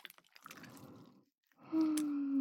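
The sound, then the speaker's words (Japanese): Cold water is poured into a container and stirred while preparing gauze for soaking. Soft splashing and trickling sounds are followed by a faint, steady pouring stream with a sustained tone. “本当はお湯がいいんですけど、ないので水を注ぎます。そして、かき混ぜてっと。”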